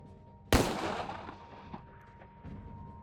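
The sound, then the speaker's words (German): A single pistol shot rings out as an android fires the gun against its own temple. The sharp, loud crack carries a long decaying tail, followed by faint low rumbling. “Er hebt die Pistole an seine eigene Schläfe und betätigt den Abzug.”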